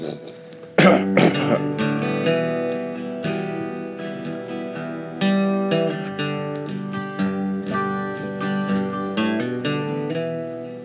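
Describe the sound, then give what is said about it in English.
A throat clearing, a rough burst of a couple of harsh rasps near the start, sounding over tuneful instrumental music that keeps playing throughout. “can I do the clearing of the throat at the beginning?”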